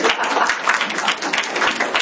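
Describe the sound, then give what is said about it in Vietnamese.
Applause from an audience at a comedic Vietnamese talk, clapping for the men, comes as a dense, brisk patter of many hands, fairly steady with small flickers in loudness. “Vỗ tay cho mấy ông.”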